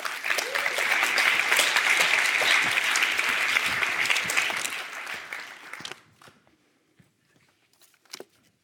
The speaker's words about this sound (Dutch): geef haar een hartelijk applaus